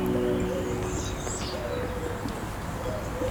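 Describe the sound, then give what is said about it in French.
Many birds chirp and coo in a heavily urbanised village, with scattered short calls over a steady background hiss. “une multitude d'oiseaux”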